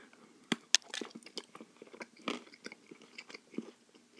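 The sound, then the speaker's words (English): Chocolate bricks with almonds are bitten and chewed: many irregular crisp crunches and softer chewing sounds, fairly quiet, with no talk. “And they're chocolate with almond in them. And I can only eat them on one side of my mouth. I'm going to have one now.”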